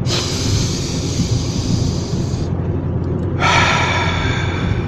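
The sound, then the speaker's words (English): A deep breath in through the nose and out through the mouth, the second of three in a guided breathing exercise: a loud, continuous airy rush lasting several seconds, with a brief dip in the hiss midway. “In through the nose and out through the mouth. I don't know why, but they say out through the mouth. What do I know? Ready? Breath number two.”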